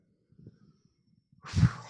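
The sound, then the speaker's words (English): A group of people at a church gathering take a deep breath together. Their breath comes as a sudden soft rush of air after a stretch of faint, low murmuring, then lingers to the end. “Okay, everybody take a deep breath.”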